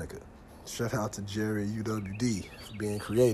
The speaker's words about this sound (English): You hear the birds chirping.